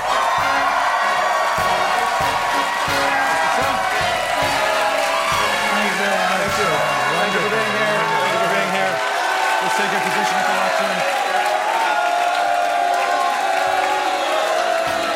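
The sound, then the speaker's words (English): A crowd at a presidential debate boos Donald Trump, a loud, sustained roar of shouts and jeers that runs the whole fifteen seconds while voices speak over it. “Mr. Trump, we're not going to eject anyone from the audience just for booing you.”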